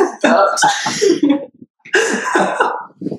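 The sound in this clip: A person burps loudly, a long, raspy, voiced belch with a throaty rattle, then a second similar burst after a short pause.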